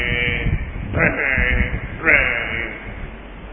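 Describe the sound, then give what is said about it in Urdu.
A voice imitating a buffalo lowing in a street at night: a loud, wavering, bleat-like call held continuously for about three and a half seconds with slight swells in pitch. “اب ایک بھینس آوازیں لگا رہی ہے”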